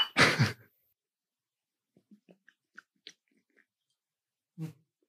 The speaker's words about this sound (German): Schluckgeräusche zu laut, ne? Im Podcast.